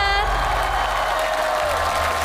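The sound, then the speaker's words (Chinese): Audience applause at a stage show with children present: steady clapping mixed with voices and tonal sounds, holding an even level throughout. “掌声鼓励，谢谢蔡老师。”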